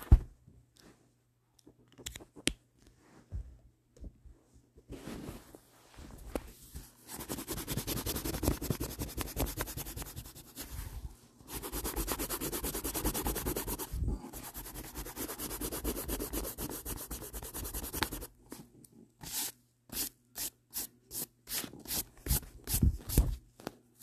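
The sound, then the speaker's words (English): A stylus scratches rapidly across a drawing tablet while a sketch is erased, in long stretches of dense rubbing broken by short pauses, ending in a run of brief separate strokes. “Just so you know, I'm literally done with the line art. Now I gotta erase the sketch.”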